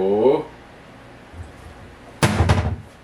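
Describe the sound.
A 19.2 oz Liquid Death Armless Palmer iced tea mega can cracks open with one sharp burst, followed by a brief fizzing hiss. A voice is heard briefly before it, then a pause.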